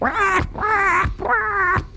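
A man imitates a bird's alarm call with his mouth: three loud, harsh, nasal cries in quick succession, each a drawn-out wavering squawk.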